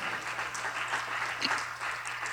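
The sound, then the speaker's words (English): A church audience claps hands in a steady, dense patter that stays faint and even throughout, with no talk. “Come on, clap your hands and say, amen.”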